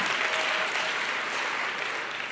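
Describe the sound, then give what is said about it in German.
A church audience claps together during a sermon: a steady, dense patter of many hands, moderately quiet and even throughout, with no speech on top. “Wer das glaubt, möge einmal klatschen oder Halleluja sagen.”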